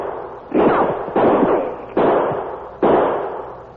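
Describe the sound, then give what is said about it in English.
Four sharp gunshots fired from behind a cottonwood tree during a western-style ambush in heavy undergrowth, spaced fairly evenly, each a loud crack followed by a short rumbling tail that fades before the next. “The shots come from behind that big cottonwood tree to the right.”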